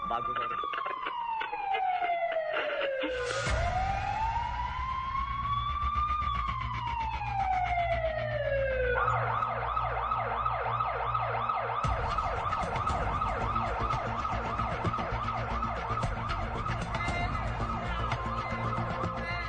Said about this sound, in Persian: آمبولانسی که در حرکت بود و از خیابان‌های مختلف شهر عبور کرده بود به اورژانس بیمارستان میرسه.